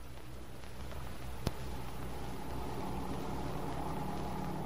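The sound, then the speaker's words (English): Old jalopy car engine running at a steady idle, a continuous low rumbling drone with a broad hiss on top and one brief sharp tick partway through. “Don't you trust yourself in my jalopy? It may look a little tired, but it runs all right.”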